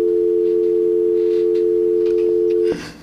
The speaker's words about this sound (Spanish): Ahí está la otra llamada, cógela.